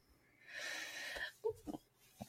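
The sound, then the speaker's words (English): A giant intake of breath: a long, loud, airy inhale lasting under a second, followed by a few short vocal sounds. “I don't know why I took a giant breath then.”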